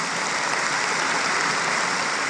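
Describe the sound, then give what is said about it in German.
Large crowd applause after a candidate accepts her election at a gathering in Hamburg: dense, steady clapping that stays loud and even throughout, with no voices. “Da der große Applaus, nachdem sie die Wahl angenommen hat.”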